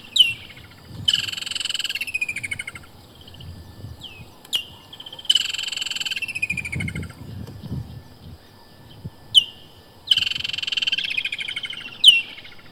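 A woodland kingfisher calls in Southern African summer, giving a sharp high note followed by a long, loud trill, with the phrase heard three times and brief single notes between them.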